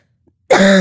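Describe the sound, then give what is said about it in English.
A forceful huff, a hard open-mouthed exhalation for airway clearance in cystic fibrosis: after a short silence, a single loud, harsh, rasping burst of breath that sounds like a cough. “Is forced expiration, also called huffing. Or hooking a loogie. Which is you put your mouth in an O shape and you breathe out as hard as you can.”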